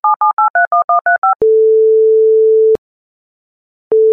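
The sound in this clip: Telephone tones while calling the town hall: nine quick touch-tone dialing beeps, then a long steady tone, a pause of silence and the same tone starting again as the line rings.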